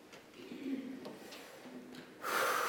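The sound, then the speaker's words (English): A deep breath taken during a guided meditation: soft, faint breathing noises give way to a louder, airy rush of breath at the end. “Just invite you to take a deep breath.”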